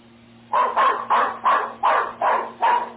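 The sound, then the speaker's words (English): A dog barking as it runs off after a cat: a rapid, evenly spaced series of loud, harsh barks over a low steady hum. “suddenly a cat came along, and off went the dog down the block and around the corner.”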